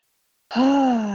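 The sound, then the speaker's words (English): A deep breath is taken after a brief silence and let out as a voiced, sustained sigh with a steady pitch that slowly fades. “Taking a deep breath.”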